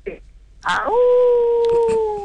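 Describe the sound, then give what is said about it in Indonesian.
A person imitates a wolf howl: one loud tone that slides up and then holds steady for over a second, after a few brief spoken sounds. “Oh, macam tu bunyi serigala eh?”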